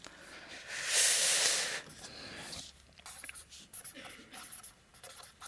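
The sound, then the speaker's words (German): Writing sounds: a pen scratching across a surface, with one longer, louder stroke early on followed by short, irregular scratchy bursts. “weil ich jetzt auf Englisch schreibe”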